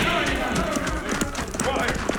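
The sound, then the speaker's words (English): Galloping horses carry riders at full speed in a Western chase, a rapid, continuous clip-clop of hooves mixed with voices. “That Cisco Kid and his partner's riding this way at full gallop.”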